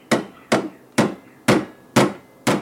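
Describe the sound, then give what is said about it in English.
Six sharp metallic hammer blows pound a bent hourglass-shaped piece of steel into a bell shape. The strikes are loud and evenly spaced, about half a second apart, each ringing briefly before the next. “He cleans an hourglass-shaped piece of steel, bends it in half, pounds it multiple times until it forms the shape of a bell,”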